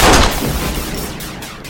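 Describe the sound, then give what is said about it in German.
A single loud gunshot in a dramatic confrontation scene: a sharp, powerful crack at the very start that decays into a rumbling tail, with no voices. “Es tut mir leid. Ich musste schießen. Sie hätten sich sonst umgebracht.”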